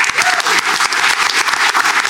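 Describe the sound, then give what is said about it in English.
Audience applause at a comedy panel game show: dense, loud, even clapping from a crowd that holds steady for about two seconds. “Round of applause for Lucy.”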